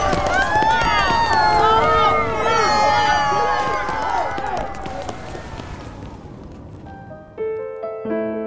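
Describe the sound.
Men run and shout in panic as a town collapses, with many overlapping cries over hurried scuffling footsteps that gradually fade, then a few sustained musical notes at the end.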